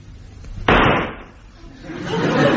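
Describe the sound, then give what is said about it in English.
A single gunshot rings out as a man shoots himself in a dramatized scene, a sudden loud, sharp crack that decays over about half a second, followed by a swelling rush of noise. “Great Scott, he shot himself.”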